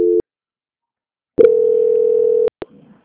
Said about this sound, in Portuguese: Aí o senhor não desliga, não, que eu só vou transferir a ligação.